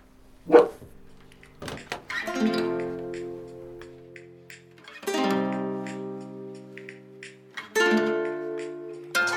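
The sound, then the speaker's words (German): A dog barking in a radio studio gives a few loud, sharp barks, each trailing into a drawn-out, whining tonal tail, with quiet gaps between them and no talk. “Wir beruhigen den Hund mal kurz”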